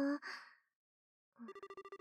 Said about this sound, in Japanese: とにかく、今から電話するから。